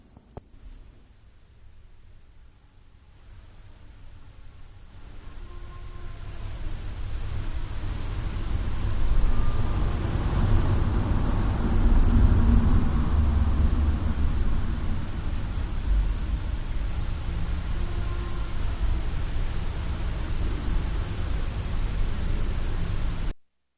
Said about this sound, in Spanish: Son varios lamentos, ¿eh? No solo uno, son varios lamentos antes y después del sonido del motor de un coche.